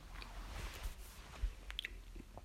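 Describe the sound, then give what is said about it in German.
Someone chews an apple in faint, moist crunches, with a few irregular bites and soft squishing sounds. No talk is heard. “Sorry, ich esse Apfel.”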